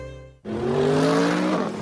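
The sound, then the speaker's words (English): A 2015 Mercedes-Benz CLA accelerates hard out of a hairpin turn, its loud engine roar cutting in abruptly after a brief tonal lead-in and holding strong to the end. “That isn't just the sound of the 2015 Mercedes-Benz CLA expertly accelerating out of a hairpin turn.”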